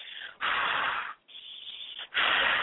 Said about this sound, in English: when we do the breathwork, we will actually speed the breath up into a rhythmic breath that will sound more like this